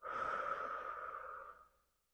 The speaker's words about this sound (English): Inhale through the nose and exhale out of the mouth.